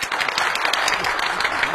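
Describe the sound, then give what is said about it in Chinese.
A television studio audience applauds to welcome a guest, with dense, continuous hand clapping that holds at a steady, fairly loud level throughout. “大家鼓掌欢迎。”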